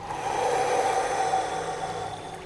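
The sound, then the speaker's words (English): A long, steady exhale through the mouth during a guided breathing practice: a soft, even rush of air lasting about two and a half seconds, with no talk. “Take a full inhale. Exhale mouth.”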